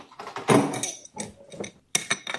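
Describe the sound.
A crescent wrench clinks and taps as a carburetor main jet is removed, giving a series of irregular light metal-on-metal clicks and scrapes with short pauses between them.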